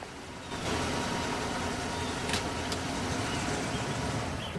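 Steady engine rumble as a sheriff's car pulls up at a cabin among autumn trees, rising after a brief quieter moment and then holding at an even, fairly loud level.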